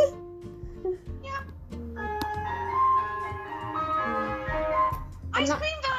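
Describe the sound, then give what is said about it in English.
An ice cream van plays its chime, a bright tinkling melody of sustained tones that wanders up and down while people chat loudly over it. “Oh my god, I always love when the ice cream van turns up”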